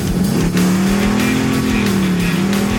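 A truck engine revs hard as the vehicle accelerates away. The loud, steady engine drone wavers slightly in pitch throughout.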